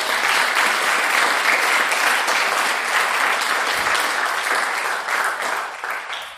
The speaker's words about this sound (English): And so let's put our hands together to welcome you.